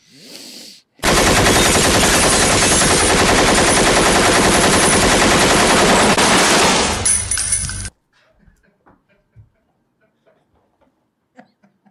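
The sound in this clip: Gunfire in Kenosha, Wisconsin: a loud, dense barrage of rapid shots runs unbroken for about seven seconds, then stops abruptly and leaves only faint scattered clicks.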